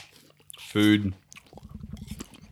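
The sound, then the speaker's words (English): Someone crunches on an apple: a rhythmic run of crisp bites and wet chewing, preceded by a short vocal sound. “I'm crunching away.”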